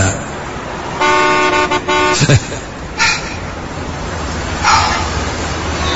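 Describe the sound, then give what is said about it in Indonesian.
A car horn honks from the car behind at a traffic light as the light turns green. The blast lasts about a second and is loud and slightly buzzy, followed by road noise and a few brief bursts of other traffic sound. “mobil di belakangku sudah mengklaksonku.”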